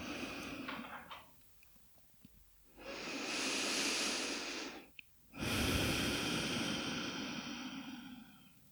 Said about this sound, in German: Und dann atme tiefer ein und aus.